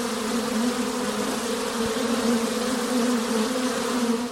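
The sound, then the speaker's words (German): Two honeybee colonies buzz in a corner of a secondary-school schoolyard in Göttingen, giving a dense, steady, low droning hum that holds at an even loudness throughout without pause. “Auch zwei Bienenvölker bevölkern das Schulgelände und die Gebiete drumherum.”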